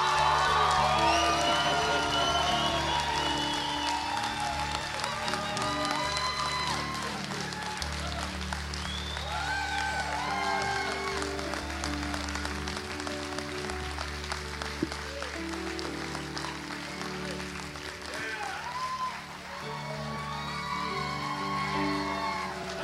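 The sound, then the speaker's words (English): Sustained applause and cheering from a church audience welcoming baptism candidates, with scattered whoops over steady clapping that stays loud throughout. “All right, all of our baptismal candidates, come on up here. Give these guys a big hand today.”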